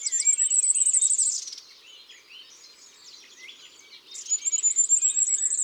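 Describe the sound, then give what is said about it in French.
Goldcrests, tiny birds, sing in a very high, thin, rapid trill. Two bursts of song open and close the passage, with softer, scattered high calls between them. “et sûrement quelques roitelets.”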